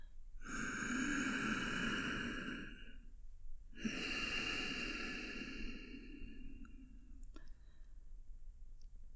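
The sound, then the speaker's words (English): Slow breathing right up against the microphone: two long, airy breaths of about three seconds each with a short pause between them, then quieter stillness broken by a faint click. “Feel my breath on the back of your neck.”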